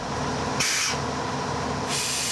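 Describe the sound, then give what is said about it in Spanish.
Train leaving the depot gives off a steady broad hiss of air or steam, with two brighter, sharper bursts of hissing breaking through it. “Rosana y su tren salen puntuales de la cochera hacia el andén”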